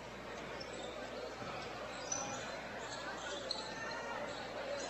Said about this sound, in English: Larson crosses half court. Dribbling on the volleyball line.